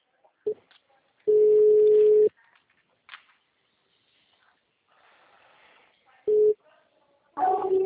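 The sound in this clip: Telephone tones as a call is placed: a short beep, then long steady ring tones at a moderate pitch separated by quiet gaps, with soft line hiss and faint clicks between them.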